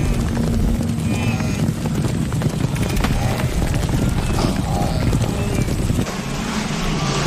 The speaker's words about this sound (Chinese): 在本能驱使下，角马群冲向河流。